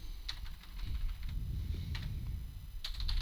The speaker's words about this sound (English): For some reason, I can't type the word snook. No? Nope. It took 4 attempts.